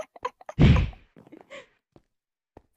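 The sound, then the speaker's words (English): A heavy, dull smack as someone is struck with a cooked pork chop. One loud thudding impact is followed by a few faint, softer rustles and taps. “I smacked you with a cooked pork chop.”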